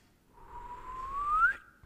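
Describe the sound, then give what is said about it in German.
A seated person whistles one rising note that swells in loudness as it climbs and then cuts off sharply, faint and alone. “Bleib schön so sitzen und jetzt pfeif mal. Nochmal.”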